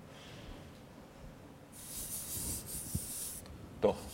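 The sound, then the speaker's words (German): Faint scratchy strokes come from someone writing a double-sum equation by hand. A brief hissing scrape is followed by a small tap, all low in level over a quiet background. “Ich schreibe es mal ein bisschen anders.”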